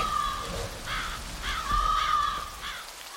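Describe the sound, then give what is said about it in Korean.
Crows caw from a dead fir branch where three black birds sit hunched. A few harsh, rasping calls rise and fade over a steady noisy background. “바로 그 전나무 삭정이 가지에 시커먼 세 마리가 웅크리고 앉아 그러는 것이었다. 아, 까마귀.”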